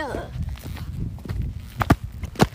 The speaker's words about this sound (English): And here is some lovely ambient noise of our feet.